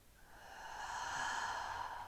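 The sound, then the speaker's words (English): A single deep breath, a soft airy rush that swells steadily louder and stays quiet overall, with no other sound. “taking a nice deep inhale and a nice big exhale. Another deep inhale in. And big exhale.”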